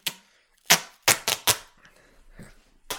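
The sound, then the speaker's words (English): Duct tape is unrolled and wrapped around an object in a series of sharp, ripping bursts, about six in all, separated by quiet gaps and faint handling noise. “I'm just going to go around maybe 5 or 6 times and put a bunch of wraps of duct tape on this.”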